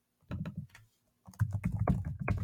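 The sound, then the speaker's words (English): Computer keyboard typing: quick, irregular clicking keystrokes in two bursts separated by a short pause, the second burst denser and longer. “I'm quickly typing up a document here to store these for all for time.”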